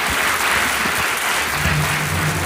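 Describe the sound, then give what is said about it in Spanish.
Loud crowd applause at a Spanish-speaking live event: thick, unbroken clapping at a steady level, with a low hum running faintly beneath it in the later part. “Un aplauso para ellos, lo dejamos.”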